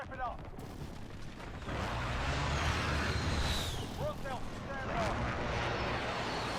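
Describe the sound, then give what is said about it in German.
Airstrike explosions in a shooter video game, a heavy rolling rumble that swells after a moment and keeps booming, with people talking over it. “Ich finde den Sound geil von dem Airstrike, aber der Airstrike selbst sackt.”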